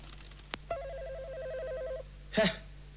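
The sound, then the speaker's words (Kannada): A telephone rings in an office with a rapid, warbling electronic trill that lasts over a second. A sharp click comes just before it and a short, noisy clatter follows. “ಸರಸರ ಕೆಲಸ ಮುಗಿಬೇಕು ಅನ್ನೋವಾಗ ಈ telephone ಗದ್ದಲ ಬೇರೆ. ಇದೋ ಪ್ರಾಣ ಹೋಗೋವಾಗ ಬಡ್ಕೊಳತ್ತೆ.”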